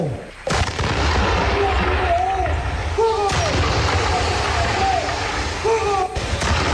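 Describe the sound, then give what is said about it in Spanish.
An artillery battery fires a 21-salvo ceremonial salute at a Colombian presidential inauguration. Several heavy booms are spaced a few seconds apart over a steady, loud background. “¡Batería, fuego!”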